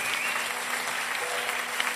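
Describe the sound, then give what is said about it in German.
Applause from a church audience after a prayer, dense steady clapping that holds at an even level for the whole clip with no voices over it. “einen Applaus nochmal”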